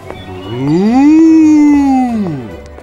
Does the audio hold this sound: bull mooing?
yes